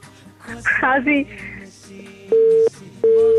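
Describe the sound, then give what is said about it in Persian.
Telephone busy tone after a phoned-in listener's call drops: a voice talks briefly, then two steady, mid-pitched beeps sound with a short gap between them. “خب تماس دوست ما قطع شد و آهنگ دومیشان که انتخاب میخواستن بکنن ما نفهمیدیم.”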